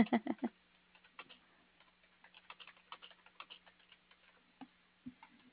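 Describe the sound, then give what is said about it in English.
Typing on a computer keyboard: a quick burst of louder key presses, then many lighter, irregular taps and a few final clacks, all over a faint steady hum. “If I could type, that would be great.”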